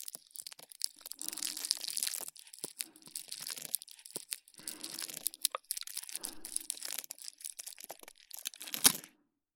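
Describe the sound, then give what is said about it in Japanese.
A bar of soap being shaved and crushed for ASMR: crisp, crumbly scraping and crunching in many dense bursts with short pauses between them, ending in one sharper, louder crack just before a brief silence. “ASMR としては大人気の石鹸削り ASMR をご披露させていただきます。”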